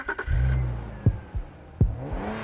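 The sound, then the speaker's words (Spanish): A BMW 3 Series car accelerating: a brief, low engine rumble followed by a few short, sharp bursts of sound. “Redefine la forma en que tomas cada curva. Cómo pisas el acelerador y cómo la adrenalina recorre tu cuerpo. Estrena un BMW Serie 3”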